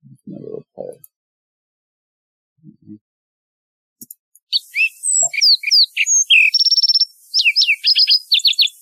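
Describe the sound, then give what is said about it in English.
Lark sparrow song at normal speed: a fast series of high, varied chirps, buzzy notes and a rapid trill, preceded by a few faint low thumps. “a lark sparrow. Let me play it at normal speed here. Let me just play it that way.”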